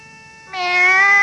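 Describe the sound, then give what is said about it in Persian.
A cat meows once in a drawn-out, steady-pitched cry that swells louder partway through and holds to the end. “میاو میاو منگارو میاو. حسن تا گربه رو دید دوید رفت به طرفش”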